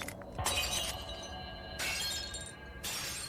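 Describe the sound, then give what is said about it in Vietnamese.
Furniture and household objects crashing and breaking with a bright, glassy shatter; three loud bursts of breakage follow one another, each trailing off into clattering debris. “Bên ngoài là tiếng bước chân chạy thình thịch, ngay sau đó là tiếng đồ đạc đổ vỡ.”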